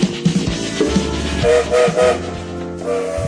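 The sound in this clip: A train rolls with a low, steady rumble while a few short whistle tones sound over it. It is used as a sound effect, and no voices are heard.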